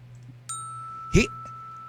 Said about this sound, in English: You might want to get the bell out.